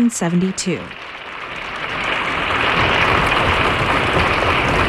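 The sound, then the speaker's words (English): Applause for the Air Force Band of Washington, D.C., at a live concert. A voice is heard briefly at the start, then clapping swells into a dense, steady clatter that grows louder and holds to the end. “Colonel Arnold Gabriel, conductor of the Air Force Band of Washington, D.C. Motions to the band to rise, he applauds them.”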